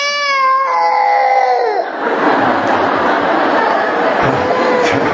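A baby cries during a church service, a high, tonal wail that falls in pitch over the first two seconds before giving way to the murmur and chatter of a crowd.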